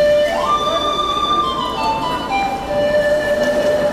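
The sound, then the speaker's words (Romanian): An announcement chime sounds in the terminal of Chișinău airport, a sequence of clear, sustained tones ringing out over a steady background hum. “Colaboratoarea noastră, Ilinca Telefka, s-a gândit că locul cel mai bun pentru a afla răspunsuri este aeroportul Chișinău.”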